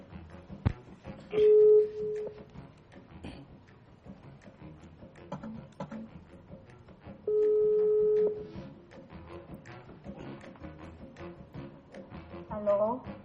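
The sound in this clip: A phone's ringback tone sounds while a call is being placed: two long, steady, mid-pitched beeps several seconds apart over a busy, murmuring background.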